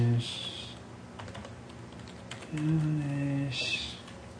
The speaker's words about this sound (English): why don't you just type?